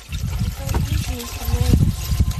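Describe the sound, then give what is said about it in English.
Bottled water pours as coolant into an old machine gun made in 1939, a steady trickling, splashing wash that runs throughout with voices in the background. “They have to pour in bottled water as a coolant.”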